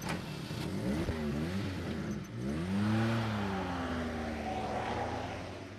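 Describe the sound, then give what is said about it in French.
A van engine revs hard as the van speeds away, its whine climbing in pitch through a couple of gear changes before the sound slowly fades. “La camionnette qui se tire sur le chapeau de roue.”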